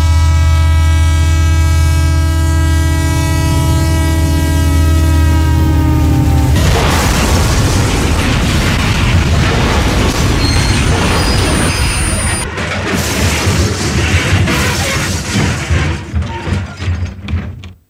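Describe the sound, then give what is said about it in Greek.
A train sound effect with a bang: a steady, harmonic horn-like tone holds for about six seconds, then gives way to a loud, dense crash and roar that runs on to the end. “Αυτό το μπαμ που βάλατε με το τρένο.”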